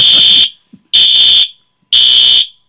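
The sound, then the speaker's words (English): A fire alarm sounding during a test: three loud, piercing high-pitched electronic beeps, each about half a second long, separated by short silent gaps, with no voices. “sorry, folks, that's the fire alarm thing's going off, so we think it's just a test.”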